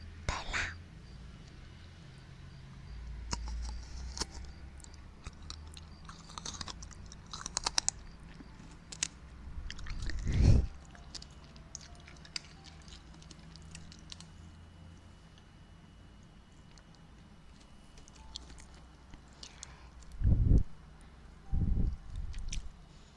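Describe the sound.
Candy is being chewed in soft, quiet, moist crunches and clicks spread throughout. A few louder thumps stand out, and faint talking sits underneath.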